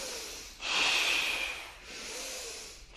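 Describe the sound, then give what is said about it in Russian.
A forceful breath during a kriya meditation breathing exercise: two breathy rushes of air, the first loud and hissing for about a second, the second softer and longer. “Вдох. Мощнее вдох.”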